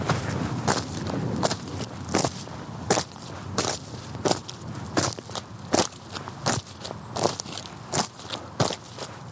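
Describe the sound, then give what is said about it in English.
Big, clumpy walking boots stomp on the bristly stubble of a harvested field, a long run of crunchy, crackling steps in a steady, even rhythm. “That is the sound of A. Buckles wearing big, clumpy walking boots and stomping on the bristly tops of stubble in a field”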